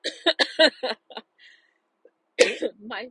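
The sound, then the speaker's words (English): Coughing and choking from a driver in a car, a few rough, voiced coughing bursts early on, a short pause, then another strained fit of hacking coughs near the end. “done coughing and choking”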